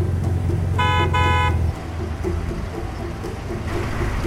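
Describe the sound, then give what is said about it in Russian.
A car horn honked impatiently by a driver, two short blasts in quick succession over a low engine rumble that then drops to a quieter steady idle. “Нервно жмет на клаксон.”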